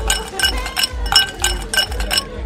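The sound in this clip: Ice cubes clinking against drinking glasses during a festive toast, a quick series of bright, glassy clinks in an uneven rhythm over a low background rumble.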